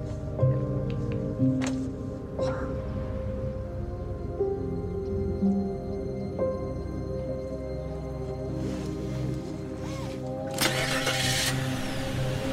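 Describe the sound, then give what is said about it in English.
A car driving off, its steady mid-pitched engine hum running throughout with a few brief mechanical clicks and a louder, brighter burst near the end. “As she drives off, the man with the golden tooth follows her in his truck.”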